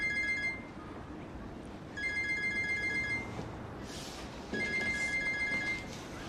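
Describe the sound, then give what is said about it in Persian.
A telephone rings in three bursts, the first cut short, each a bright, repeated electronic trill over a steady low background noise, with quiet pauses between rings. “جواب بده دیگه، رئیس داره بهت زنگ میزنه.”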